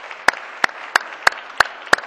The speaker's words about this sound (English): I would love for the body to make them feel welcome today. Let's welcome the guests of the Senator from the 9th to the Missouri Senate.